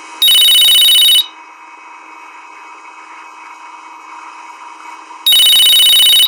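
A telephone rings for a caller phoning in to a teen advice radio show, in two loud, shrill bursts of trilling bells. A steady low electronic tone fills the gap between the bursts.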